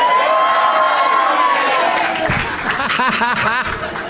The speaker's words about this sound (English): Half of you cheered, and half of you sang, "This is Doug Loves Movies."